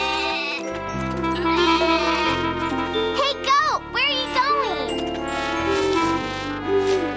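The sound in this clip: A hungry goat bleats a few times in wavering, bending cries over bright, jingling music.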